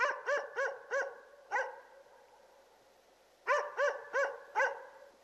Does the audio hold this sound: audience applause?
no